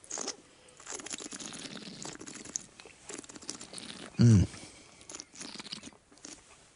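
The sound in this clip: Someone chews Bassett's liquorice allsorts, with soft crunching and wet mouth sounds and one louder, brief crunch past the middle.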